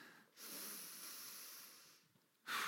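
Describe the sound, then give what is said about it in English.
Slow, deep breathing during a guided meditation: a long airy inhale of about one and a half seconds, a short pause, then the loud start of the next breath as a soft hiss, with no talking. “Let's just breathe in and out.”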